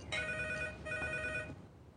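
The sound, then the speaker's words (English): A telephone ringing in a home with two phone lines: two bursts of steady electronic trilling tone separated by a short gap, fairly faint over a low background hiss. “Why did that phone ring? We have two telephone lines.”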